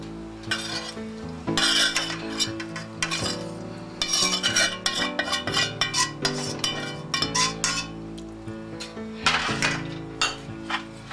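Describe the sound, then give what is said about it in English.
A utensil stirs sautéed onions and mushrooms in a pan, with continuous scraping and clinking against the cookware over a soft sizzle. The busy stirring rises and falls in many irregular strokes, with no talk. “First, I'm going to mix my sautéed onions and mushrooms.”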